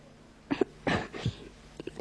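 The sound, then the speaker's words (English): Weak, harsh coughing from a gravely ill girl, a few rough bursts spaced apart and fairly faint, with no talk. “That last fit of coughing has tired me a little.”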